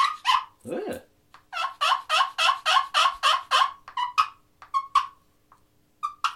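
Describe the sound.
A wooden turkey call made of soft wood gives a long, even run of rhythmic, raspy yelps with a mellow tone. A few scattered, sharper notes follow the yelps, and no voices are heard.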